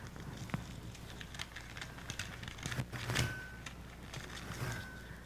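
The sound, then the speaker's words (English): Paper crackles and tears as a sealed envelope is ripped open at a prize giveaway, a quiet, continuous run of many dry, irregular rustles and snaps that swells briefly past the midpoint before settling back into soft crinkling. “Well, why don't you open the envelope? Yeah, I sealed them all up. I guess I get to rip them open.”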